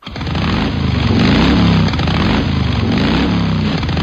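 Motorcycle engine revving during a police road-safety check of motorcyclists: a loud, rough buzzing roar with a steady rapid pulse, swelling twice before settling.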